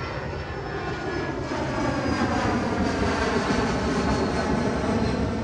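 Airplane flying in to land in Thailand, a loud, steady engine roar with a broad rushing drone and a faint high whine, alone and without voices.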